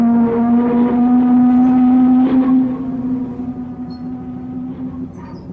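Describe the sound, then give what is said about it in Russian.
A riverboat's horn sounds as the vessel approaches a landing stage on the river: one long, steady, low blast that holds loud for about two and a half seconds, then carries on softer to the end. “Подать сигнал подхода к пристани рулевой.”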